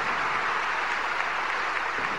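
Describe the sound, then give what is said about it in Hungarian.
Pilgrims applaud Pope Francis at a papal general audience, a large crowd's steady, unbroken roar of clapping that stays even and continuous from start to finish. “Tapsviharral köszönik meg az audiencián jelenlevő személyek a Ferenc pápának a mai katekézisét”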